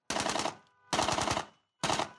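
An AK rifle is fired into the air at a wedding in three loud bursts of automatic fire, each a rapid rattle of shots, separated by short silent gaps.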